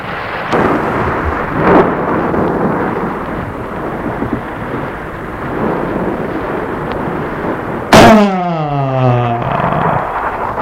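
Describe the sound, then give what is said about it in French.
Thunder from a lightning strike: a long, rumbling roar, then a sudden loud crack followed by a ringing, sweeping tail. “la foudre est tombée sur l'homme, qui est jeté en arrière et tombé dans le précipice.”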